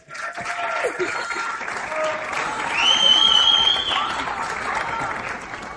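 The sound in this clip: Audience applause for a maestro and his orchestra: dense, sustained clapping that swells slightly toward the middle and stays steady to the end.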